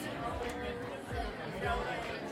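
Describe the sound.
Crowd chatter fills a busy downtown street thronged with people, press and TV news crews, a dense, steady murmur of many voices over a low rumble with a few swells in loudness.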